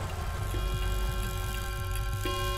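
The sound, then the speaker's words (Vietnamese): Wall clock ticking in a bedroom at night: faint, steady, evenly spaced ticks over a soft, sustained tonal hum. “Tiếng kim đồng hồ trên tường dội vào tai tôi trong cơn mơ màng.”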